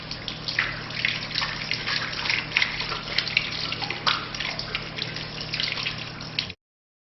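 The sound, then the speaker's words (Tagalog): Running tap water splashes steadily while both hands are washed up to the wrists during ritual ablution. The flow is a continuous, moderately quiet hiss with small splashy fluctuations, then cuts off abruptly just before the end. “Hugasan ang dalawang kamay hanggang pulso ng tatlong beses. Unahin ang kanan bago ang kaliwa.”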